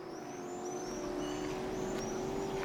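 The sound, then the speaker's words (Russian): Motorboat engines running on a bay, a faint, steady mechanical drone with an even tonal hum that holds throughout without pause. “Слышите моторы? Словно гоняют на мотоциклах. Но это шум моторок.”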